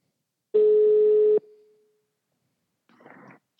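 Telephone ringing tone on an outgoing call: one steady, buzzy tone of under a second sounds alone, fades, and is followed by quiet and then a short burst of soft noise.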